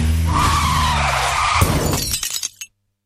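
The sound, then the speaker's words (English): A car skids, its tires squealing steadily for over a second, then it crashes into a pedestrian with a sharp impact and a clatter of breaking debris that stops abruptly. “So she hit a pedestrian. Texting while driving can be as dangerous as drinking and driving.”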